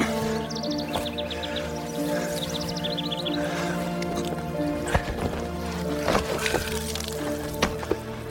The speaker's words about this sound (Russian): Садится на землю, выливает воду из сапог.